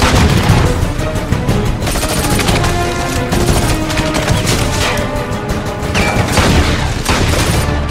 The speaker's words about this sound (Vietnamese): Anh nhắm mắt bắn bừa.